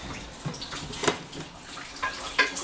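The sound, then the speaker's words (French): Running water splashes over a baking dish being rinsed clean in a kitchen sink, a soft steady flow broken by a few louder splashy bursts. “on va rincer un peu le reste.”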